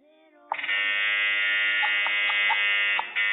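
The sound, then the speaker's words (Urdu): Quiz show buzzer from an Islamic knowledge quiz contest: a loud, steady electric buzz held for nearly three seconds, just after a brief voice. “Buzzer بجا دی ہے”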